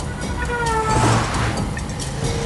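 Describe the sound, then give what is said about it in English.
A Corvair car accelerates on a narrow road, its engine a loud, continuous roar with a steady hum and tonal whine running through it from start to finish. “With the road clear, David puts his foot down and forces the Corvair up alongside Margot's blue Volkswagen.”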